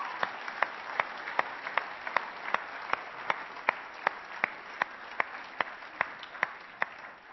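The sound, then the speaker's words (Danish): An audience claps in unison for people asked to stand, a steady, evenly spaced beat of sharp claps that keeps an even tempo from start to finish. “Alle jer, der var med dengang, kunne I ikke rejse jer op? Skulle vi ikke give dem en mægtig hånd?”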